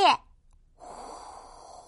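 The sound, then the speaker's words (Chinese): A short vocal burst is followed by one soft, sustained audible breath, from a children's story in which a little bear practises breathing in and out to stop his hiccups. “吸气，呼气， 吸气，呼气。”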